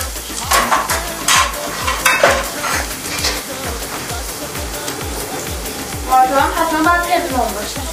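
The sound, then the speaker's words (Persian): Food frying in hot oil in a pan over gentle heat gives a steady, bright sizzle, broken by scraping stirs and clinks of a utensil against the pan, busiest near the end. “باید بذاریم یه 3-4 دقیقه همینطوری واسه خودش سرخ بشه. درسته؟ بله. روغن هم در عرض تقریبا 1 دقیقه داغ شد.”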